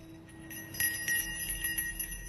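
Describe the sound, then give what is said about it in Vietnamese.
A small bell hanging overhead jingles in a light breeze blowing off a river, giving a few bright metallic tinkles over a faint steady ringing tone. “Gió từ mặt sông thổi nhẹ nhẹ, cái chuông treo ngay trên đầu Đạt nó kêu lên mấy tiếng leng keng leng keng”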